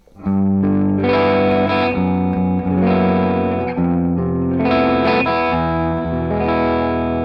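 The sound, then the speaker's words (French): Electric guitar power chords played through an effects pedal, heavily distorted with a chorus-like shimmer, descending chromatically from G down to E in a steady series of loud, sustained chords. “J'ai descendu des power chords chromatiquement, du sol jusqu'au mi, avec la pédale en service.”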